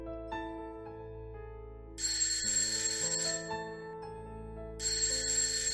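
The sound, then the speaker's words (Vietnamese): A phone alarm set for early morning plays a melodic, chiming ringtone, a steady tune that repeatedly swells into brighter, high ringing passages, loud and alone without any talk. “Tiếng chuông báo thức của thằng Tài chất thật. Tôi với tay tắt điện thoại của nó.”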